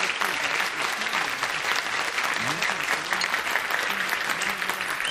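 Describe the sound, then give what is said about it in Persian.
A crowd of audience members claps steadily and densely throughout, a loud continuous wash of applause with a voice speaking over it. “دوستان تشویق کنید، شروع نکنید تا به سبک من دست بزنن، تشویقشون کنید.”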